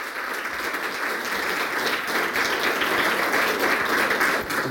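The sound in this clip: Audience applause welcomes a writer and a critic onstage at a literary event in Oslo. Warm, dense clapping holds steady and swells slightly toward the end.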